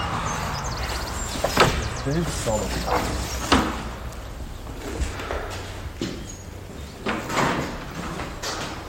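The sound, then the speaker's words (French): An old Gascon door lock is worked open in reverse, giving a few scattered metallic clunks and knocks among creaks and rattling against a steady background. “C'est une vraie serrure gasconne, il faut ouvrir à l'envers.”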